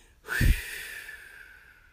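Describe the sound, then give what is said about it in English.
One deep exhale through the mouth during a guided breathing meditation, a breathy rush that begins abruptly, peaks quickly and then tapers away over about a second and a half, faint and alone. “like you're sending out a stream of air. Okay, so let's do one exhale just to get everything out of our lungs.”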